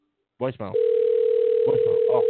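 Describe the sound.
A steady, unbroken telephone tone on an outgoing call sounds alone and level after a brief stretch of talk, continuing to the end while voices speak over it.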